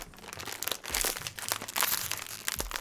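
A plastic bag of spicy chicken wing flavoured chips is torn open with loud crinkling and crackling rustles and a few sharper tearing bursts, with no voices.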